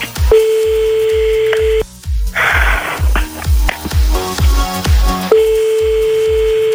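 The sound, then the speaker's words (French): A phone call rings out over looping background hold music. Two long, steady ringing tones are separated by a noisier stretch, with a rhythmic musical beat pulsing underneath throughout. “On appelle maintenant. Dès que t'entends plus la petite musique en dessous de toi, tu dis allô.”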